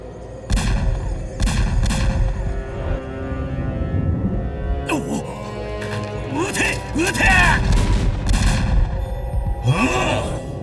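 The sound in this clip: Gunfire: a series of sharp, loud shots at irregular intervals over a dense, noisy background, with voices crying out between some of the blasts.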